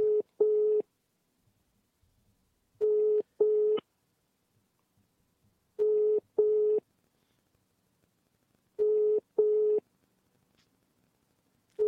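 Ringback tone of an unanswered phone call: steady, mid-pitched double pulses that repeat about every three seconds with silence between, three full pairs plus partial ones at the start and end, and no voices.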